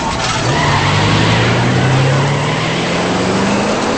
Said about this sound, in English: An SUV slams through a driveway gate and rams his Mustang. The SUV makes its escape.